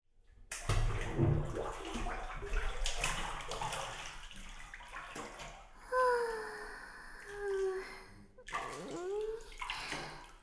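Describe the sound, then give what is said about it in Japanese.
Water sloshes and splashes as a person lowers into a hot bath, a churning wash that comes in uneven surges. Drawn-out vocal sighs follow near the end. “これはいいお湯ですね。足の先から心臓に向かってじっくりと温まってきます。”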